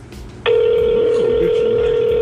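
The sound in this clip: A steady telephone tone from an outgoing call begins after a moment of background talk and holds at one even pitch, loud and unbroken, to the end.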